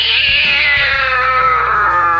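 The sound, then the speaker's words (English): A frustrated cross-eyed cat lets out one long, loud, whining meow, heard alone, its pitch drifting slightly downward as the cry stretches out. “Like this frustrated feline, cross-eyed cats cannot easily catch mice or chase birds.”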